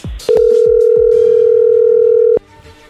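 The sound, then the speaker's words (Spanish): A telephone tone sounds while a call is being dialed: one loud, steady, unbroken tone lasting about two seconds, with a few soft knocks before it. “Ok, ok, ahí ya se está marcando. Dale.”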